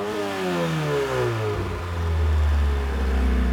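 A car engine running slightly rich revs loudly and steadily, its tone sliding downward as the revs settle into a lower, rumbling hum.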